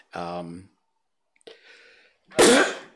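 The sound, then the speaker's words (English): A live sneeze: a short voiced wind-up and a quieter catch of breath lead into one loud, explosive burst that trails off. “wow, a live sneeze on the air. Imagine that. There's a first.”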